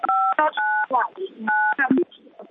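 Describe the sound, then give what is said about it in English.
Telephone keypad DTMF tones during a meeting: three steady, loud dual-pitch beeps, each lasting a fraction of a second, separated by shorter clicks and bursts of voices talking in the room. “Somebody's dialing.”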